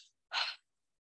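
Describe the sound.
A voice imitates a shallow breath drawn through the shoulders: one short, breathy rush of air, heard alone after a faint trace of breath at the start.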